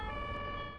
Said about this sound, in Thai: รถพยาบาลน่ะ